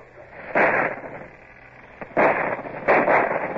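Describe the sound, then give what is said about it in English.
A ship's starboard cannons fire a broadside at a shore battery: three heavy, booming blasts at uneven intervals, the last two close together, over a low, steady background rumble. “Starboard guns! Fire as your guns bear! Steady aim!”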